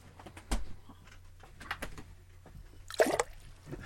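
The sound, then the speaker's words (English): A mouthful of drinking water splashes back into a glass in a short, faint spatter near the end, with a softer liquid sound earlier on. “that's the sound of my water falling back out of my mouth into the glass.”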